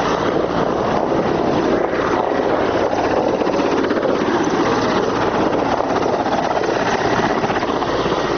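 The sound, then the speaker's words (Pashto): Loud, steady rotor and engine roar of a Mi-25 combat helicopter of the Afghan forces flying overhead, a dense continuous drone with no breaks or voices. “زموږ پر سر د افغان ځواکونو دریغه جنگی می 25 هلیکوپټر هم ګرځي”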